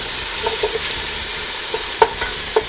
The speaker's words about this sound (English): And I'm gonna go back to my cooking because I'm gonna burn this if I don't stop yakking.